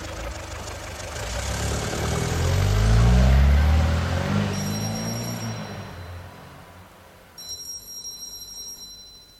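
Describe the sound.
A taxi engine pulls away after dropping a passenger at a house: a low rumble swells to a peak, then fades steadily into faint background noise.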